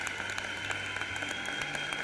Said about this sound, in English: would you just give an applause to show your love and your appreciation to them for their service to us?